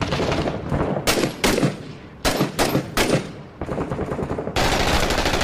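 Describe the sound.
Loud bursts of automatic gunfire from a video game set in Fallujah, repeated many times in rapid rattling volleys with brief gaps between them, and no talk.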